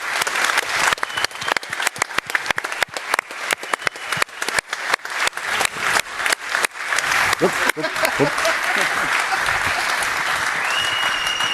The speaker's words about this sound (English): So give it up, loud stand up for this crew.